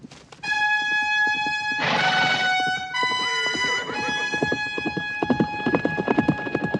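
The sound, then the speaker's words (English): A horse galloping, its hooves making rapid, rhythmic thudding beats that grow clearer toward the end, under steady sustained tones and a brief noisy rush. “Dylan mounts his horse and gallops for the house.”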